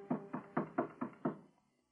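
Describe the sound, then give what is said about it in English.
Six knocks on a door in an even, quick rhythm, each a soft hollow thud, fading off after the last one. “She turned toward the door when Ngobe knocked.”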